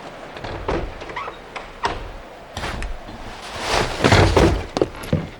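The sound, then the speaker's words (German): Someone climbs in through an open window of a house, making an irregular run of creaks, scrapes and dull thuds, with a denser, louder cluster of knocks and bumps near the end. “Schließlich ging er um das Haus herum und entdeckte ein offenes Fenster. Bob zögerte nicht lange und stieg kurz entschlossen ein.”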